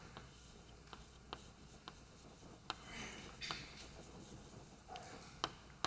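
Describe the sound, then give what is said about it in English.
Faint scratchy strokes of equations being written by hand during a quantum field theory lecture, with a few sharper taps and ticks as marks are made, alone and quiet. “it may be that the Heisenberg picture is better for our purposes, but let me just write them both.”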